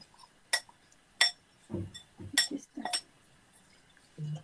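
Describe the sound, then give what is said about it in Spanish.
A spoon stirs a granola mixture in a bowl, giving a few sharp, bright clinks against the dish mixed with softer, duller knocks at an irregular pace, with no talking. “Lo voy a revolver muy bien para que se incorpore todo así dentro de la granola y no quede todo separado.”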